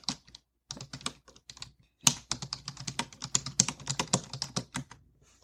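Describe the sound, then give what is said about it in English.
Rapid typing on a computer keyboard, a steady patter of many light key clicks with a couple of brief pauses, quiet and without any voices. “Let me type that in.”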